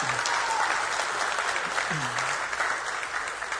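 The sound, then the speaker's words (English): An audience at a church service applauds to welcome a speaker, a steady, dense clatter of clapping that fills the whole stretch without letting up. “Come on, give him a great big warm welcome.”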